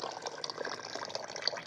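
Running water pours over dough as it is washed by hand, a steady splashing, trickling flow with small drips and sloshes throughout, fairly faint, with no voices.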